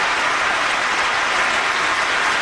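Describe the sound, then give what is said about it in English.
An audience claps in dense, steady applause, loud and even throughout with no pauses or separate voices standing out. “And there they are, clapping like a bunch of morons.”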